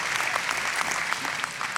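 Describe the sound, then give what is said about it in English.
Audience applause at a church gathering, brief and steady. Many hands clap together at a moderate, even level. “The obligatory clapping sign is working, which is good.”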